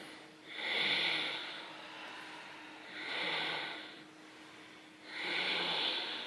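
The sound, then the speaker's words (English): Ujjayi breathing in a yoga practice, the breath drawn through a narrowed back of the throat: three long, soft, hissing, ocean-like breaths, faint and even, with quieter gaps between them. “Ujjayi breath. It's the HA in the back of the throat.”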